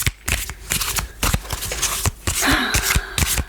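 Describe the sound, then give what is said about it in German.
Tarot cards being shuffled, a rapid run of many crisp slapping riffles and clicks with short gaps, fairly loud and without talk. “Wir mischen jetzt... Deine Zukunft. Deine Zukunft in einer Karte.”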